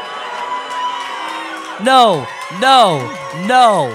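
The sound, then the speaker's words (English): Audience booing at a live show: three drawn-out vocal boos, each arching up and then falling in pitch. They sound loud and clear after a stretch of quieter murmuring. “I think you should be booing yourselves.”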